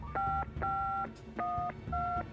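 A telephone is dialled to place a call, giving four separate two-note touch-tone beeps in an even rhythm, each clear and steady, with brief gaps between them over a soft low rumble.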